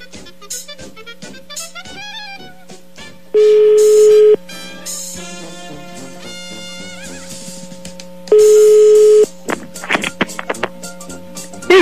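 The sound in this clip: Phone line tones during a call being dialled: two long, loud, steady beeps about five seconds apart, with assorted shorter beeps and warbling tones between them.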